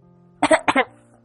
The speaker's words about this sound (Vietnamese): Lâm Duyệt Vi ho khụ khụ, nàng hối hận vì đã hỏi vấn đề này.